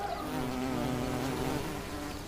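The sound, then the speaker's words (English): A wool carder bee buzzes at an old wooden fence: a steady, unbroken insect drone that holds an even pitch and moderate loudness throughout, with no voices. “An old wooden fence has not gone unnoticed. A wall carder bee has moved in.”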